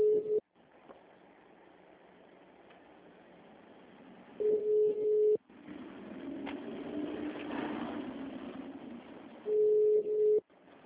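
A telephone ringback tone on an unanswered call to a bank: three steady, mid-pitched tones, each about a second long, spaced about five seconds apart over a faint line hiss.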